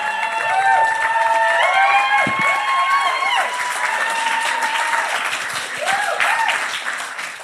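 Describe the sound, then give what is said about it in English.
Loud, sustained applause and cheering from an audience as two women guests are called to the stage, with dense clapping steady throughout the whole stretch. “And those two women are in the room tonight and you're going to give them a big round of applause and they're going to come down here”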